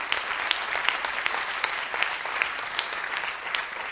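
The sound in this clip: An audience applauds during a coaching session, many hands clapping in a dense, steady wash with a few sharper individual claps standing out at irregular moments.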